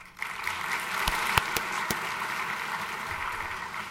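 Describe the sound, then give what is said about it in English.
Audience applause for Dr. Dellinger as he stands to be thanked for the lecture series at an evening event. A dense, steady wash of clapping starts abruptly after a brief quiet moment and holds at an even level throughout. “I would ask him to stand so that we might extend our appreciation to him for this fine series which he has provided for us. Dr. Dellinger, here, please.”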